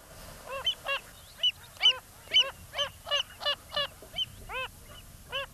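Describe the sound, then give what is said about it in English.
Wilson's phalarope, a spinning shorebird of salt lakes, gives many short, nasal, honking notes in a quick, repeated series with brief gaps between them, fairly clear against a soft background. “this is the call of that spinning bird of Salt Lakes, the Wilson's phalarope.”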